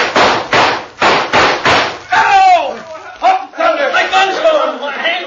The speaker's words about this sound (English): Now shoot at their guns, along with me. You ready? Pancho ready, Cisco. Now.